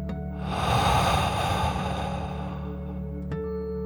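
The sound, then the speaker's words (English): A slow, deep breath in a guided bedtime relaxation 'dragon breath' exercise swells into a long, airy rush and then fades, over a soft, steady tonal music drone. “take one more deep breath. Dragon breath, in and out.”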